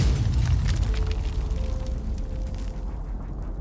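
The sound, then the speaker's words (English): A bomb strikes a building during a wartime air raid, heard as a loud, sustained deep roar and rumble with no sharp onset, holding steady and easing slightly toward the end. “They're almost out of the building when the bomb strikes.”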